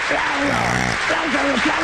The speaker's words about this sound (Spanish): Fuertes aplausos.